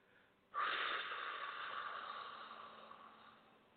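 A slow exhale during a guided breathing exercise, a breath held and then released. A single long, airy, hissing outbreath starts abruptly and fades gradually over about three seconds, sounding alone.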